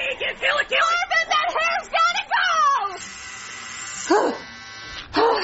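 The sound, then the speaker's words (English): An electric shaver shaving a head buzzes steadily for about a second, set between loud, excited shouting voices. “Okay, look, I'm gonna shave it anyway.”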